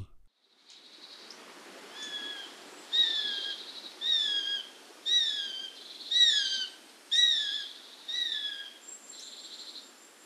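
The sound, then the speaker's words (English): Sparrowhawk calls: a series of high, sharp ki notes repeated at an even pace of about one per second, moderately faint, with no other sounds around them. “its call note is most often heard as a series of rapid notes in one tone, ki ki ki ki ki, and sometimes a single ki”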